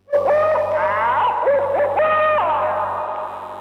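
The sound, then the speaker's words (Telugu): An owl hooting from a tree: a sustained, wavering tonal call with rich harmonics and bending pitch, repeated in a few phrases over a low steady hum. “ఈ వింత శబ్దం ఎక్కడి నుంచి వస్తుందబ్బా? అమ్మో గుడ్లగూబ, ఇది ఈ చెట్టు మీదకు వచ్చిందేమిటి?”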